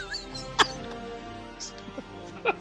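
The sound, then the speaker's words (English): A button on an Oval Office desk being pressed gives two sharp, squeaky clicks about two seconds apart, fairly faint over a low background. “That's the sound of the button, mate.”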